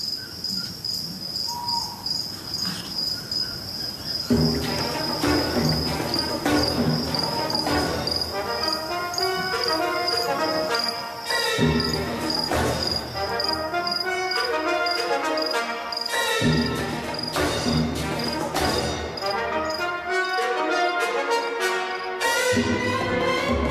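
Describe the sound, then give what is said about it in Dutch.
Cicadas chirp in a nature recording with a steady, shrill, high-pitched drone that runs throughout. After about four seconds a dense, loud layer of other sound joins and continues beneath it. “Een bosuil, zijn jongen op de tak, een kwartel, cicades.”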